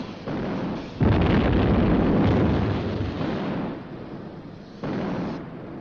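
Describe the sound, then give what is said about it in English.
Artillery bombardment of the ship Amethyst: heavy, roaring blasts of gunfire, with sharp rises in loudness at two points during continuous booming. “The Amethyst is shrouded in grey smoke from the continual bombardment. They'll get the range from our gun flashes!”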